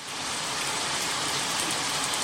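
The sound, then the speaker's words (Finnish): A heavy downpour of rain falls at a cottage in Kuusamo, Finland, making a dense, steady hiss that stays loud and even throughout with no voices. “Joo, siinä on. Taas siis kaatosade.”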